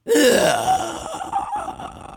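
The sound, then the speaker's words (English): A ghostly, breathy inhaling sound made with a human voice as a raw take for an eerie creature effect. It is a loud, drawn-out voiced breath with wavering tones that starts strongly and then thins into a rougher, fading texture. “And that's just kind of a ghostly inhaling kind of sound.”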